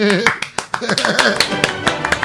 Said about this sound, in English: Or just applause.